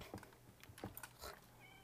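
A cat in a video game meows in a few short, faint mews amid soft clicks and low background noise.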